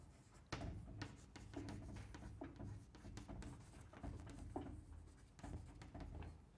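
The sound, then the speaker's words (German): Handwriting with a pen or chalk, heard as a fairly quiet run of scratchy strokes in uneven bursts with brief gaps. A faint low hum continues underneath throughout. “ich schreibe es nochmal hin”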